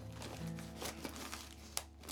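Faint crinkling of a sheet of stickers being handled. A few soft, brief rustles sit over a low, steady hum.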